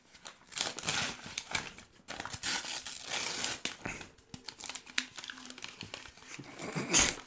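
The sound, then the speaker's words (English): Packaging crinkles and tears as someone unwraps a 25-ounce can of Busch beer, giving many faint, irregular rustles and crackles in uneven bursts throughout. “He's unwrapping.”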